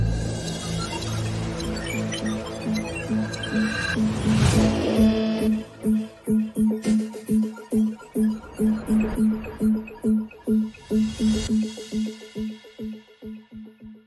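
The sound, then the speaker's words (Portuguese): An opening jingle for a live Brazilian stock-market news programme plays on air: sustained musical tones swell to a bright burst, then a long run of many punchy rhythmic hits follows before the music fades out. “Um, dois e roda a vinheta.”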